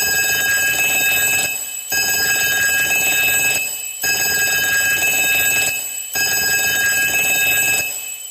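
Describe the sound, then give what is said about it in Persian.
An alarm clock rings in four long, loud, bright bursts. Each lasts under two seconds and is separated by short, even pauses. “زنگ ساعت، زنگ ساعت برای چی پخش کردی حالا؟”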